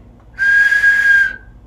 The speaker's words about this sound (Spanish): bueno, esto tiene un silbato, porque la tecnología de las botellas silbadoras son con silbato.